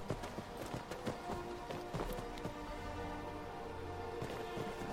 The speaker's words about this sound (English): Get off your horse